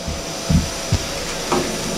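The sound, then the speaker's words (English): A vacuum sealer runs steadily as it seals a bag around an egg. The even whirring hum is broken by a few soft knocks. “Final step, sealing the vacuum sealing the egg.”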